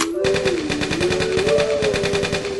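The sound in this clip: Rapid automatic gunfire in a video game, with many fast, evenly spaced shots hammering on steadily for over two seconds after a brief quiet start.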